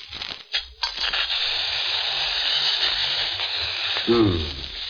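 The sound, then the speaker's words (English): An egg is cracked and dropped into hot oil in a smoking pan, with a few sharp clicks at the start, then a steady, bright sizzle that fills the rest. A voice speaks briefly near the end. “Hand me an egg. Here. Thanks. Now, I'll just crack it, drop it in the hot oil.”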